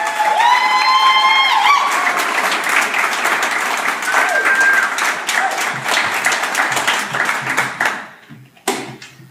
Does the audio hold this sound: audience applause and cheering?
yes

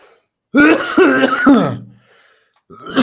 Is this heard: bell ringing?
no

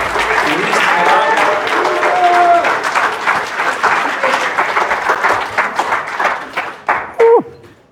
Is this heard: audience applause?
yes

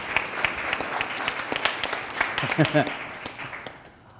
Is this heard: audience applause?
yes

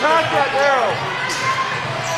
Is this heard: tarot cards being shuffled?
no

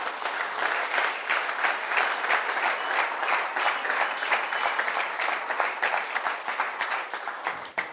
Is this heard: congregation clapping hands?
yes

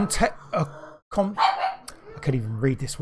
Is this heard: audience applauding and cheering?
no

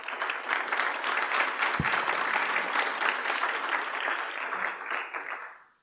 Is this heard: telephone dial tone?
no

